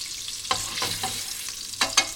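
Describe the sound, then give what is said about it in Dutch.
Salmon seasoned with salt and pepper fries skin side down in a pan, giving a steady, soft sizzling hiss broken by a few brief scraping accents. “We gaan ook de zalm even bakken. We hebben nog peper en zout. We doen altijd eerst de huidkant. Zodat hij mooi krokant wordt.”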